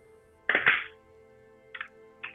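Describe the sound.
A die dropped onto a table during a tabletop game lands with a loud hollow thunk, then a few fainter taps follow as it settles.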